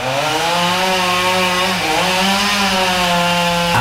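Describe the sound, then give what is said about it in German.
A chainsaw running loud and steady on its own, its high buzzing engine holding a constant pitch apart from a brief dip partway through. “Motorsage. Für die einen ist sie einfach nur mühsam und laut. Für andere ist es aber ein wichtiges Werkzeug und das jeden Tag.”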